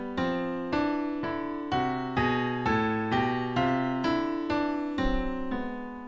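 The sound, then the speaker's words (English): A piano plays a melodic minor scale in contrary motion, two lines struck together in an even series of ringing notes, one voice climbing while the other descends. “as a pianist, I think this sounds really cool if you hear this going in contrary motion, because you hear the descending version in one voice while you hear the ascending version in the other voice, and it sounds like this.”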